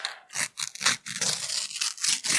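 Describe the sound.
A sticker packet being torn open with many short, crinkly rips and rustling bursts in quick, irregular succession. The sounds are fairly faint, with brief pauses between them.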